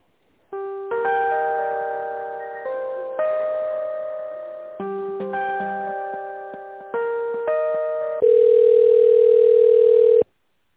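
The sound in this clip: Telephone tones play while a call to a medical service centre is transferred to a specialist: a series of chime-like electronic notes that fade after each onset, then a louder, steady single tone lasting about two seconds.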